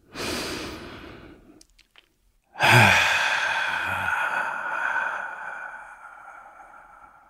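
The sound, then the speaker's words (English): A deep breath: a breathy inhale of about a second and a half, a brief silence, then a long, loud exhale that slowly fades over several seconds. “let's take a deep breath.”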